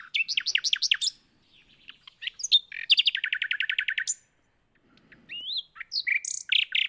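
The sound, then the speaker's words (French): Varied, rich song of a nightingale, a bird often heard singing at night. Bursts of rapid repeated notes, fast trills and sweeter whistled phrases are broken by short pauses, fairly clear and heard alone without voices. “C'est le chant du rossignol, que l'on entend souvent la nuit, mais pas seulement.”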